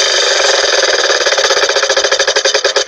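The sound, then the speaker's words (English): Rapid clicking of a spinning prize wheel, its ratchet ticking fast and even before slowing into more widely spaced clicks toward the end. “let's spin the big wheel of languages and find out where it lands.”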